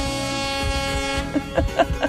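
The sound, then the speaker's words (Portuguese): Horn of a tractor-trailer truck honking: a sustained, loud harmonic blare that breaks into a few short, punchy toots toward the end. “Cadê a buzina dele lá da carreta?”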